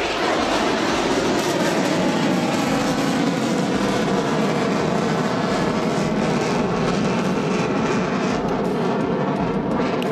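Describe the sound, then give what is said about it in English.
Two F-16 fighter jets fly and bank over Mindle Beach, making a loud, steady roar with a dense rushing texture that continues for the whole stretch. No one speaks. “So you can just hear in the background, we've got two F-16s and banking to the right there.”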